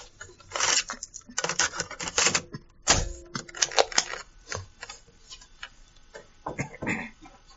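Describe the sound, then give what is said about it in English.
Mechanical clicks and clunks of a cassette tape being turned over in a recorder, a dense run of irregular sharp ticks and rattles with a few heavier knocks, with no talk. “But let me turn this tape over first.”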